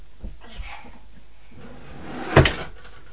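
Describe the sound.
A drawer pulled open to take out clothes: a couple of soft knocks, a quiet stretch, then one louder wooden clunk near the end.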